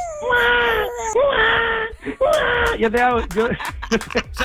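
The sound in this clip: An infant cries and whimpers in a series of high, wavering wails broken by short gasps and pauses, with later cries turning choppier and more sobbing.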